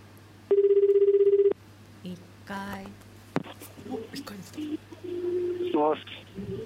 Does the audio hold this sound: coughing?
no